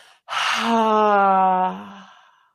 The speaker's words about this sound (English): And when you can't hold it any longer, releasing HA.